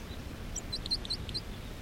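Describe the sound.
A songbird perched on a low bush sings a quick series of short, high chirping notes, faint over a soft background hiss.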